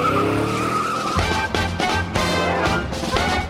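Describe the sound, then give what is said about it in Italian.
Race cars skid at a motor race on the Bologna circuit: loud, continuous roaring engines with squealing tires, with several sharp surges in the din. “Enzo Ferrari assiste alla sua prima gara automobilistica al circuito di Bologna.”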